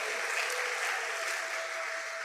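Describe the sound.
A church audience applauds to acclaim God's faithfulness during a sermon, a steady, dense patter of many hands clapping at an even level for just over two seconds.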